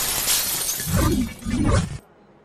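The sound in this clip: Glass shatters as a video game character crashes through a window. A loud, bright crash of breaking glass and scattering debris lasts about two seconds, then cuts off abruptly to near silence.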